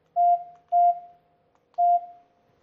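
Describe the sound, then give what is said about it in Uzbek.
A telephone number is dialed as three short electronic keypad beeps of the same pitch. The first two come close together and the third follows after a pause, with no voices. “Telefon qilaylikchi.”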